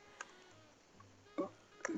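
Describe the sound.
Computer mouse clicks. A few short, sharp ticks are spread apart over a quiet background.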